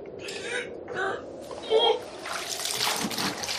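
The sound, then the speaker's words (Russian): Water splashes and sloshes as a man struggles in an ice hole cut in the frozen river near the Vasilyevsky Island embankment. Bursts of splashing come in uneven waves under voices, then turn into a continuous noisy churn. “«Дядя Матвей, гляди-кась! Человек в проруби тонет!»”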